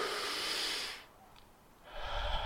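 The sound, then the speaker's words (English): A deep breath, heard as two long, airy rushes of breath about a second each, split by a short quiet pause, with no talking. “Take a deep breath.”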